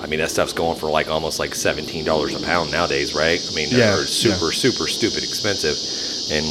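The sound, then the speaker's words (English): Cicadas buzz as a steady, high-pitched drone that runs throughout beneath people talking in the foreground. “There's probably a lot of people who listen. They're like, if they haven't been listening and know us talking about the cicadas, they probably have no clue what that noise is in the background.”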